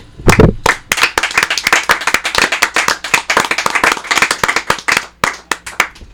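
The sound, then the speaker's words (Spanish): An audience applauds a musician being welcomed onstage, giving steady, dense hand clapping throughout with sharp individual claps standing out, loud and continuous without a break. “Los vamos a recibir con un aplauso a Manolo Olivera de los”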